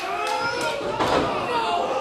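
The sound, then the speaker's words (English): A wrestler's backbreaker flows into a sidewalk slam on the ring. A single heavy thud lands midway through a steady, dense background din. “with a backbreaker into a sidewalk slam into the cover”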